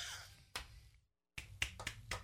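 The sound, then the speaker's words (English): A golf clap, quiet polite clapping: a few soft, sharp hand claps, a single one, a short silence, then a small uneven cluster of four or five light claps, faint overall. “golf clap”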